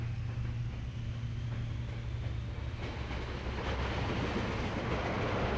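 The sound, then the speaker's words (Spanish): A train getting under way, with a steady low rumble and rattling carriage noise that stays even in level throughout. “Las puertas se cerraron tras ella y con un empujón el tren se puso en marcha.”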